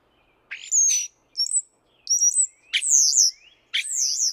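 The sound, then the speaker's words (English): European starlings calling: five squeaky, whistling bursts of high chirps separated by short pauses, fairly faint and heard alone without talk. “They can almost resemble a school of fish moving together in a squeaky symphony. And BirdNote's Michael Stein reports that when starlings are paired up and raising chicks”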